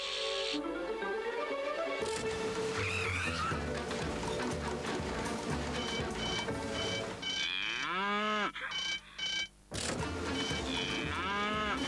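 A cartoon cow moos, a few drawn-out lowing calls among busy animated sound effects, loud throughout, with brief gaps near the end.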